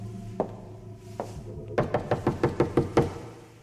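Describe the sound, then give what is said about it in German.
Someone bangs hard on a door: two separate knocks spaced apart, then a quick, insistent run of many evenly spaced blows, each a sharp, hollow thud. “Willst du die Tür kaputt schlagen?”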